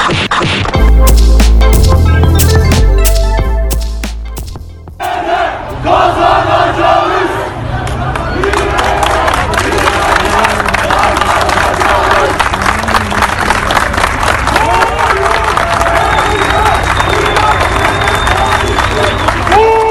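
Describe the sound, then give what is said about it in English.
A large protest crowd of mostly young people in Istanbul, Turkey, roaring and shouting loudly. A heavy rumble gives way to sustained, rhythmic chanting from many voices. “Well, those were the sounds of large protests, mainly made up of young people in Istanbul, Turkey, earlier this morning.”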